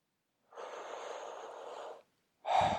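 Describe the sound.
A long, steady breath drawn in for about a second and a half during a breathing exercise, a short pause, then a strong, breathy release of air.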